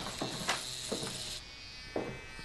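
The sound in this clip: Electric clippers shave a boy's head with a steady buzzing hum, broken by a few brief, louder bursts as the blades pass over the scalp.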